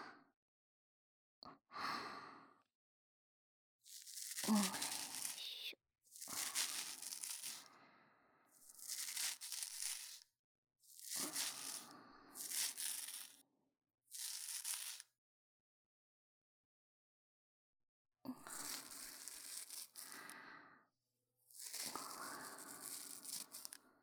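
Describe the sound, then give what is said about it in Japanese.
Sideburns being trimmed at a barber, with crisp rasping, snipping bursts in a series of short runs separated by pauses, clear and fairly loud with no talking. “まずは、もみあげ、こちらでしょりしょりと整えていきますね。”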